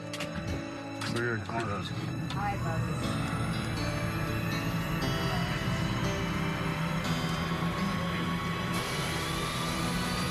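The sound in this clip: Aircraft engine starting up, heard from inside the cockpit: a steady rising whine climbs in pitch over a constant roar, with people talking throughout.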